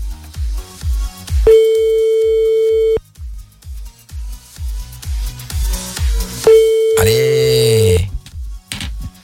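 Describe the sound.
Telephone ringing tone heard while calling a number: two long, steady, mid-pitched tones separated by a gap of a few seconds, over a rhythmic thumping background beat.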